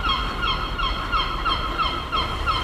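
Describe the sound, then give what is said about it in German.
Seagulls calling over a city centre in Kiel: repeated short, nasal, harmonic cries come in a loose rhythm over a faint, low, steady street background. “Was man hier hört, sind die Möwen im Hintergrund.”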